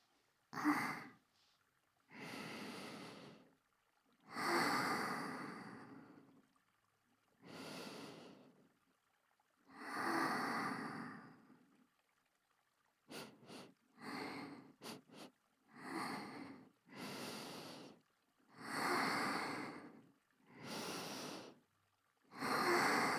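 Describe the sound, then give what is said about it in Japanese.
A person sniffing to smell someone: many long, drawn-out sniffs separated by pauses, with a quick run of short, sharp sniffs midway, soft and breathy throughout. “最後にもう一回だけ、嗅がせてくださいますか？”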